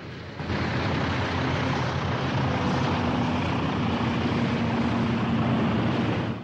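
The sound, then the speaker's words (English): A twin-engine plane touching down on water gives a steady, loud droning engine roar blended with broad rushing noise. It swells in after a brief quiet start and holds evenly to the end. “Touching down, the twin-engine plane trails a plume of white spray.”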